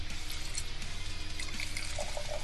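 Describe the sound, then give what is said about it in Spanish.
Red wine poured into a wine glass, a soft, steady liquid pour with a faint gurgle that runs throughout, and a few light ringing tones near the end. “Así suena un tintito en una copa.”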